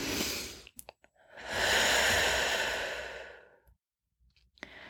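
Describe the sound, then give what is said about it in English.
A single deep breath drawn in, a long, loud, airy rush that swells over about two seconds and then tapers away, preceded by a few faint clicks. “let's all take a breath in here.”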